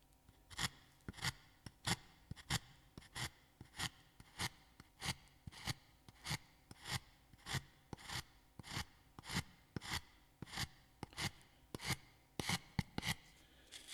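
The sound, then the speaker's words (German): Deer antler being grated by hand, a long run of many steady rasping strokes at an even rhythm, each a short dry scrape, with no talk. “Hirschhorn reiben muss ich noch hier.”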